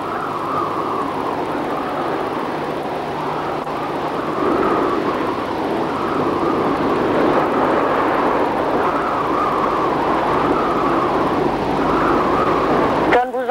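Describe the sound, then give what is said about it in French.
Sea waves make a continuous, loud roar of surf with a broad, rushing hiss that swells and eases slowly without a break. “Ce bruit de mer, là, vous êtes toujours à dire, oh mon Dieu, où c'est qu'il roule, où c'est qu'il est.”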